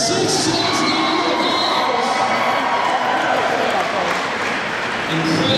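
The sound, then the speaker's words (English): A crowd cheers at the Child's Play charity auction at PAX Prime as PopCap wins the Omega Claw, a drugstore claw machine. Dense, loud cheering and shouting with mixed voices runs unbroken throughout. “That was the sound of PopCap bidding up and ultimately winning the Omega Claw, a drugstore claw machine that served as the final battle in the Omegathon at PAX Prime this year.”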